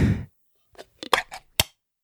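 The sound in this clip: Crinkling and tearing as a package of Hawaiian snacks is opened right in front of the microphone. A few sharp, crackly bursts follow a brief voice at the start.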